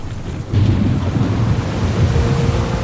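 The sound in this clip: Thunder rumbles with steady rain during a typhoon on a tropical seacoast. The low, dense roar swells suddenly after a brief quieter opening and stays loud and continuous to the end.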